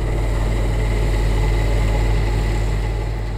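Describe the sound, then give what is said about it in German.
Engine drone of a 5.5-tonne special tracked vehicle driving out onto frozen lake ice with an ice milling machine, a loud, steady low rumble with a continuous rough rasp that holds without a break. “Der Spezialradtrack mit einem Mitarbeiter vom Werkhof am Steuerknüppel fährt auf den See raus. Dort lädt er die Fräse aufs Eis ab. Und fährt an Raspeln.”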